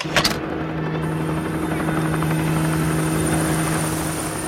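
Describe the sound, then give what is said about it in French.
Helicopter rotor noise from red civil-security rescue helicopters landing on a stadium pitch at Furiani to evacuate injured people: a steady, loud, droning thrum with a sustained low hum throughout, no talk. “Dans le ciel au-dessus de Furiani, des hélicoptères rouges de la sécurité civile se rapprochent et se posent au centre du terrain. Puis ils redécollent emmenant des blessés.”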